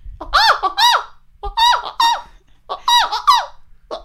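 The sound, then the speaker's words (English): A human voice imitates an annoying bird's repetitive call with high, squeaky, warbling chirps, mostly in pairs, repeated three times with short silent gaps between the groups. “you ever heard a bird like that was just doing this over and over again?”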